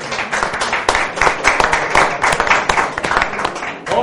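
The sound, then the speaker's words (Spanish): Audience applause: dense, steady clapping that holds at an even level for the whole span, a thick wash of overlapping hand claps without a clear rise or fade. “Damos un aplauso.”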